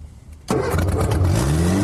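A car engine starts after its fuel pipe was replaced: quiet at first, it suddenly catches and runs loudly, then revs with rising pitch.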